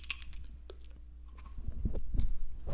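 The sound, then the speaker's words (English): A plastic lid is screwed back onto a pill bottle, making a series of small ratcheting clicks and scrapes over a low steady hum. The clicks grow denser and louder toward the end. “Do you hear that? It's me screwing the lid back on.”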